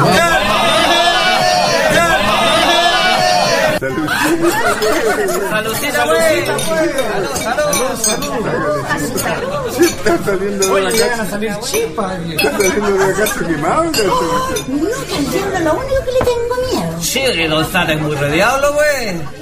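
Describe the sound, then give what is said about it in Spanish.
A crowd chats in a chingana, a Chilean folk bar, with many overlapping voices forming a dense, continuous babble punctuated by the clink of glasses. “así está la gente en estos momentos en la fonda, en la chingana, porque no somos fonda, somos la chingana del canto libre”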